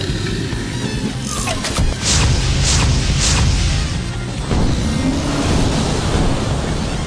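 Missiles and torpedoes launching from a spaceship in a sci-fi drama: several loud, rushing bursts in quick succession over a deep rumbling roar that swells and surges again.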